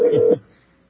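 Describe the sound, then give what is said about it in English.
A short burst of DTMF telephone dialing tones, a steady beep lasting about a third of a second before it cuts to near silence. “Going to hear the DTMS here? We do. We hear the DTMS. We're trying not to decode them.”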